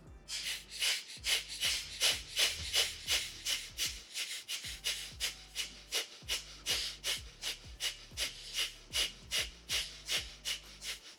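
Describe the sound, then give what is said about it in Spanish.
Rapid, rhythmic deep breathing during a conscious breathing exercise, with many quick inhales and exhales following one another in a steady pulse and a few brief pauses between runs. The breaths are fairly soft, and no one speaks. “Vamos a hacerlo otra vez 30 veces. ¿Ya? Ok, inhalamos. Vamos a hacer solamente una más normal. Inhalamos.”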